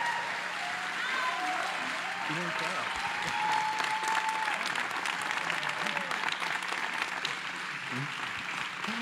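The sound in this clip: Sustained applause from an audience welcoming a speaker to the platform at a church service. It holds a steady, dense level for the full nine seconds, with voices mixed into the clapping.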